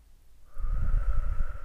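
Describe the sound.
A deep breath drawn in through the nose during a guided belly-breathing exercise. Soft rushing air swells after a quiet start and holds steady to the end, with a faint sustained tone beneath.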